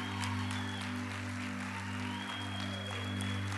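Congregation applauding in celebration at a church service: continuous, even clapping throughout, with a low steady hum beneath.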